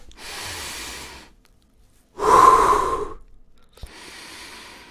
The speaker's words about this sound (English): Because when I breathe, I inhale oxygen, I improve the quality of my thinking, I reduce my blood pressure and my pulse